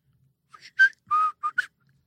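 A person whistles the opening melody of a song as a short run of clear, bright notes, one held longer than the others, then stops. Nothing else is heard.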